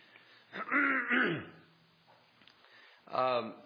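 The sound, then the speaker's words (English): Throat clearing in two voiced, rasping bursts, the first longer and rougher, then a short quiet gap before a second, briefer clearing. “Excuse me, I got something in my throat. Maybe that'll take care of it.”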